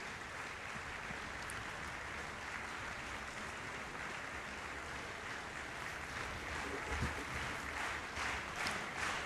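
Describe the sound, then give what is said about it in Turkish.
Concert audience applauding an orchestra after a performance, a dense, steady wash of clapping that holds at an even level for the whole stretch, with no break or voices standing out. “Alkışlar devam ediyor.”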